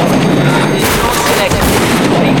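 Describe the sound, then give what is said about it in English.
Gunshots in an audio drama as a man blasts two people, one of them a police officer; dense, loud, continuous crackling blasts fill the whole moment, with voices mixed into the chaos. “Julian blasts Stevie and the copper.”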